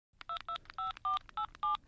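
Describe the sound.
Telephone keypad dialing tones as a call is placed: six short, evenly spaced touch-tone beeps in quick succession, clear and moderately quiet.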